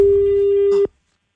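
Telephone tone for a radio call-in contest, a single loud, steady electronic tone at one fixed pitch that holds for under a second, then cuts off abruptly into silence.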